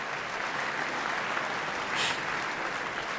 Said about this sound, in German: Ein Applaus geht weiter.